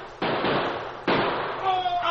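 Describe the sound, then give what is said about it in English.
Two loud gunshots in a Lone Ranger radio western shootout, each a sharp crack trailing into a long noisy roar, with a voice briefly heard at the end. “The gang shot Little Bill and Butch.”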